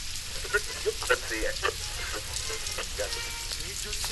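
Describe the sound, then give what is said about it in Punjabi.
Rain falls again in a quiet, steady hiss of dense patter, with a few slightly sharper drops standing out early on. “ਇਹ ਬਾਰਿਸ਼ ਫੇਰ ਸ਼ੁਰੂ ਹੋ ਗਈ ਹੈ। ਮੈਂ ਤਾਂ ਪੂਰੀ ਤਰ੍ਹਾਂ ਭਿੱਜ ਗਿਆ।”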